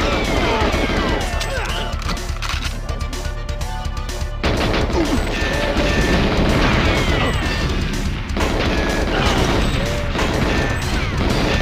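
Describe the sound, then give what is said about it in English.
Computers explode over and over in a first-person shooter video game: a dense, continuous barrage of loud crashing booms and rapid gunfire bursts, layered and chaotic throughout with no clear break. “You might hear a lot of explosions happening right now. Those would be computers.”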